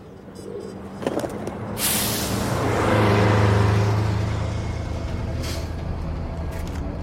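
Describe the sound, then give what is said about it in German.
A bus engine is started and the vehicle drives off, with a low rumble that swells into a loud, sustained revving roar before easing to a steady drone. “Also nehmen wir einen Bus. Da steht einer. Tür weit offen. Schlüssel im Zündschloss. Den nehmen wir.”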